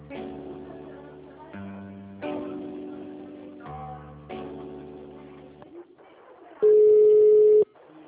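A telephone rings with an electronic ringtone: a few alternating tonal phrases of moderate loudness, then a single loud, steady beep that holds for about a second before cutting off.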